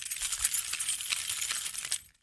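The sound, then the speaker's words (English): Keys being picked up, a bright metallic jingle of many small clinks and rattles running for about two seconds before stopping, with no talk over it. “Hold on, let me get my keys.”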